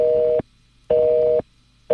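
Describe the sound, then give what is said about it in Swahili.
A telephone busy signal: a steady mid-pitched tone pulsing on and off at an even rhythm, about half a second each, with two full beeps and the start of a third. “Jen ameweka simu yake busy.”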